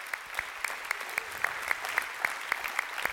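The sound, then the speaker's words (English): A church audience in northeast Oklahoma applauds with a steady, faint wash of clapping, and a sharp clap stands out at an even beat about a dozen times. “if you guys are here in person, if you would you put your hands together and welcome in our online campus as well?”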